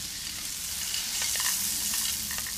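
Arborio rice, 350 grams, frying and being stirred in a pan: a steady bright sizzle and hiss with scattered scraping and ticking from the stirring.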